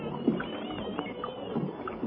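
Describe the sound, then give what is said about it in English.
Oars working water as a small rowboat is rowed across to a larger boat, with several soft splashing strokes and gurgles at a moderate level, no voices. “Let's row over. They're letting down a ladder for us.”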